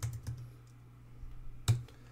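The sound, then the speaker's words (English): Keys clicking on a computer keyboard while a search is typed into Google: a few sparse, quiet taps, two close together at the start and a sharper one later, over a low steady hum. “Type in AI Test Kitchen.”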